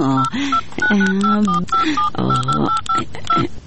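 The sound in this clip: Phone number being punched in on a telephone keypad, a rapid, uneven string of many short, bright dialing tones, loud and close together.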